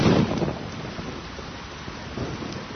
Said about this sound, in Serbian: Pljusak vas zatiče na ulici sa tek sređenom frizurom.